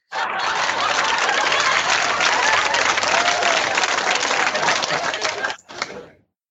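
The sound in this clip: An audience applauds: dense, steady clapping holds at an even loudness for about five and a half seconds, then thins and stops.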